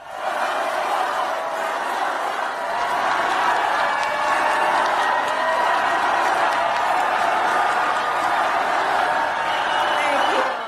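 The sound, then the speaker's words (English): Loud, large rally audience cheering and chanting the name of Vice President Kamala Harris as she approaches the podium, a continuous dense roar of voices that holds steady throughout. “the vice president spoke to a loud, large and appreciative audience who chanted her name as she approached the podium.”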